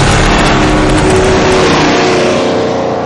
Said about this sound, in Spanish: El autobús pasa a toda velocidad por la calle.